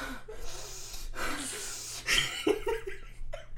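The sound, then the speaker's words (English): A voice imitating heavy breathing: loud, breathy huffs and gasping inhales repeated over a few seconds, rough and uneven, with no clear words. “So whenever I hear someone breathing heavy,”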